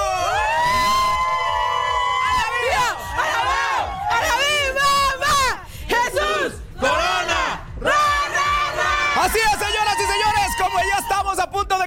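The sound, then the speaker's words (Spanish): A crowd gathered for an autograph signing in Tlalpan cheers and shouts in loud, repeated bursts of many voices, with short pauses between the waves of yelling. “Y todo está listo para que comience la firma de autógrafos de José de Jesús Corona. ¿Cómo dice el público?”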